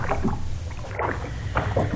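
Oars dip and splash as a rowboat is pulled hard and fast across the water, a few rhythmic strokes of watery sloshing and knocking over a steady wash of noise, with no voices.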